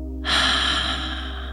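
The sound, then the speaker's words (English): A forceful exhale out through the mouth during a breathing exercise: a breathy rush that starts abruptly and slowly tapers off, with no talking. “And then you're going to exhale out through your mouth double times. And again, inhale. Double exhale.”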